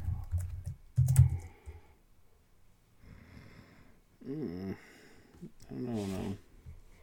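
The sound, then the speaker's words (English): Computer keyboard typing comes in short clattering bursts while people talk over and between them. “Yes, type it out. Type it out. Good job.”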